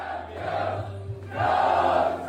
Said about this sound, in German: Das besiegelte den ersten Titel für Arsenal nach 22 Jahren. Und umso schöner ist der Jubel.